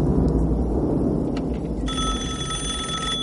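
A home telephone rings partway through, its bright, steady trilling bell starting after a stretch of low rumbling background and continuing to the end, with no voices.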